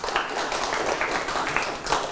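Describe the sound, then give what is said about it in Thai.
Hand clapping as applause during a language lesson: a dense, steady patter of many claps runs the full length at an even level. “ปรบมือให้ตนเองเก่งมาก”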